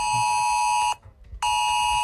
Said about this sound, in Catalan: aquest missatge, l'ES Alert, ha tornat a sonar fa tot just una hora.